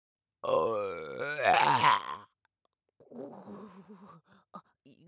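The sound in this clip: Big, drawn-out voiced burps from a person: one long, loud belch wavering up and down in pitch, then after a short pause a second rougher, lower belch followed by a couple of short gulping bursts.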